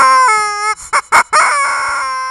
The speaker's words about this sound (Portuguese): A galinha também quer mandar abraço.